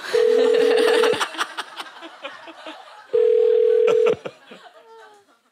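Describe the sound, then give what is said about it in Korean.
Ringback tone of a telephone call going unanswered: two long, steady, low buzzing rings separated by a pause. People chat and laugh quietly underneath. “연결이 되지 않아. 연결이 되지 않아. 왜? 연결이 왜 되지 않아? 왜 안 받으시지?”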